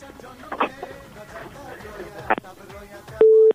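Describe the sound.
A phone tone sounds after a caller's line is cut off: one short, steady, flat beep at the end, following a stretch of voices talking.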